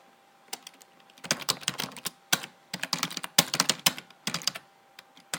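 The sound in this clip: Typing on a computer keyboard as a sentence is entered into a word processor: many fast, irregular key clicks in uneven bursts with brief pauses, fairly faint and with no voices.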